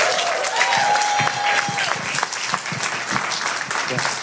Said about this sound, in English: Put your hands together and let's welcome our brother